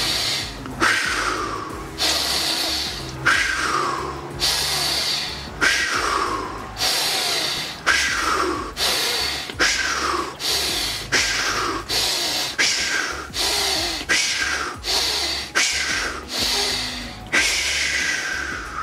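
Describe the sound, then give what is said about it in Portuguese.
Repeated breathing exercise of a deep inhale followed by a rapid exhale through the mouth: many forceful, hissing breaths in a steady rhythm over a low, constant hum, with no speech. “Você vai inspirar profundo e soltar pela boca bem rápido, ó.”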